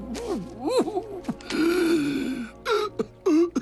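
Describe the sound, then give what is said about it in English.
Spluttering, gasping and coughing from a man voicing a dying frog king: a few strained, groaning voiced gasps, then a long rasping splutter and short harsh bursts. The sounds are moderately loud and uneven. “The frog king splutters and coughs before seemingly succumbing to his death.”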